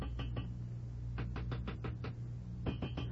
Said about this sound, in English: I was just tapping on the radiator, see? Like this.